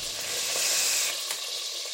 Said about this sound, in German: Das Ganze dann in die Margarine, die da vor sich hin brutschelt.